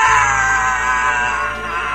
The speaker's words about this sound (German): Hast du das gehört? Ja, der Schrei ist wahrscheinlich auch mit aufgenommen.